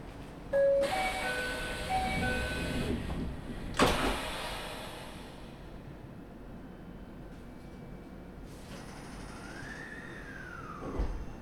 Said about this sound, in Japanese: 扉が閉まります。ご注意ください。